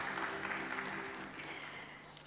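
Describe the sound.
An audience applauds to welcome a guest speaker at a formal event, with steady clapping that fades gradually toward the end.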